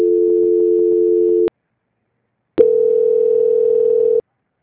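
A telephone tone sounds during a call transfer: a steady, loud electronic hum holds for over a second, cuts to silence, then a second sustained tone follows before stopping abruptly.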